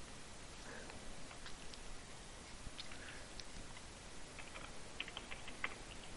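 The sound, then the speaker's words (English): Faint typing on a computer keyboard, scattered light key clicks in an uneven rhythm over a steady background hiss, with a small cluster of sharper taps near the end. “Typing it up.”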